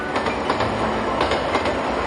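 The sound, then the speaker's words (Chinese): A train pulling out of Tongliao station gives a steady, full rumble with faint rhythmic clicking of wheels on track, heard alone without voices. “列车驶离通辽站”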